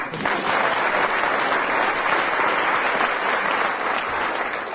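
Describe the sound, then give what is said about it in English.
Enthusiastic applause from a comedy panel game audience for the winning team, a thick, sustained roar of clapping that swells in quickly, holds steady for several seconds and eases slightly at the end. “So the winners there were Tim Brooke Taylor and Willie Rushton, for whom the audience will now rise in acclaim.”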